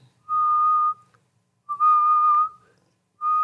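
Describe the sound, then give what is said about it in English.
A person whistles one note while raising and lowering their head, producing three clear sustained tones in a row, each lasting roughly half a second to a second, with the pitch staying nearly the same throughout. “I was trying to learn to whistle when I was younger at Grandma's house. And I could kind of only do one note, but I would raise and lower my head. Like I was making different noises.”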